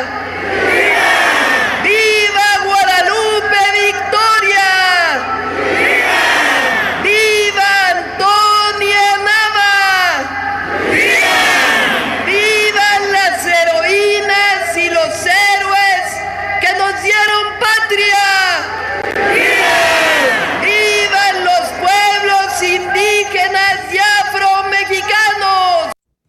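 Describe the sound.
A crowd shouts patriotic vivas honoring Mexican national heroes at an independence celebration. A leading voice calls out and massed shouts answer, in loud repeated waves.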